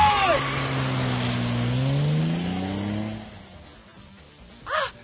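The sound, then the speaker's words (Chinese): A car pulling away fast, its engine droning loudly with a slightly rising pitch for about three seconds before fading away, followed by a short, sharp sound. “快啲 开车！”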